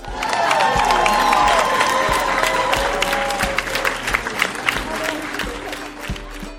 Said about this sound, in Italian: Un bel applauso.